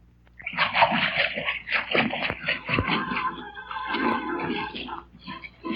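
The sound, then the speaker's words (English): Water gushes and splashes into a padlocked escape tank, a fairly loud, continuous sloshing roar broken by choppy bursts of splatter. “And now, ladies and gentlemen, I will turn on the water that will fill the tank.”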